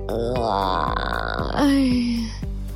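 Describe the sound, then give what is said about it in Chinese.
A drawn-out, voiced yawn from someone just woken too early: a groaning tone that holds steady, then drops lower and trails off, over a steady low hum. “被阿布吵醒的端端只能无奈地边打哈欠”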